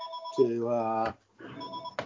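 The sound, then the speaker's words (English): A home telephone rings in two electronic bursts with a short gap between them. A voice speaks over part of the ringing. “sorry, my home phone's ringing. I'm just going to get rid of that.”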